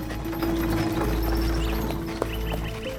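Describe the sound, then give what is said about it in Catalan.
Hooves of a horse pulling a cart clip-clop in a steady, even rhythm over a continuous low rumble, fairly faint throughout with one sharper knock near the end. “Luke i la Mercè viatgen en carro.”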